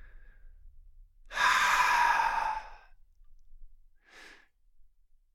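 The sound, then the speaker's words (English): A deep breath drawn in: one loud, breathy inhalation lasting just over a second, followed by a brief, fainter breath sound, with no talking. “So take a deep breath in.”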